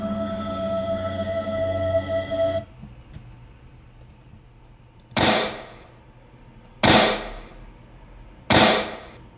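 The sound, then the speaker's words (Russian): Three loud pistol shots ring out, evenly spaced, each a sharp crack with a decaying tail. They follow a steady low hum that cuts off beforehand. “Грянули три выстрела, и фальшивый завхоз повалился на пол.”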